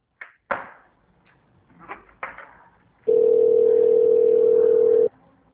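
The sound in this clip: A telephone dial tone heard while calling a number: a few short clicks and taps, then a loud, steady, unbroken tone lasting about two seconds before cutting off.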